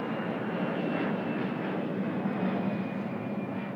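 Airplane flying overhead during an outdoor service: a steady, broad engine roar at constant loudness with a faint thin whine above it, heard alone for the whole stretch.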